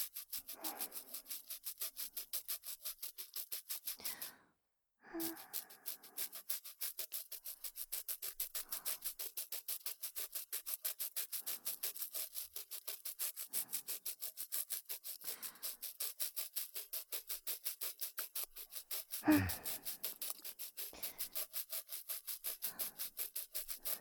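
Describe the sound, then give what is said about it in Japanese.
Slow hand scrubbing and polishing of teeth with a brush: many rapid, even rubbing strokes form a soft, steady scratchy texture, broken by one brief pause early on. “最後でも焦らず、ゆっくりと磨いていくぞ。 ゴシゴシ。”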